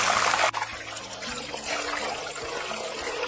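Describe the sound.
Potatoes fry in hot oil for a potato and onion omelette. They are slightly wet, so the oil spits. A loud, steady hissing sizzle fills the whole stretch, with one brief dip near the start.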